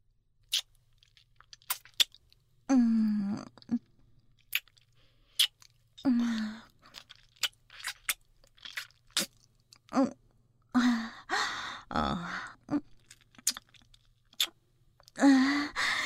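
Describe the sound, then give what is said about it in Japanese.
Wet licking and smacking mouth sounds on a nipple in an intimate audio scene, arriving in many short, irregular bursts with soft clicks between them and occasional brief voiced sounds. “じゃあ、左の乳首から舐めちゃおう。”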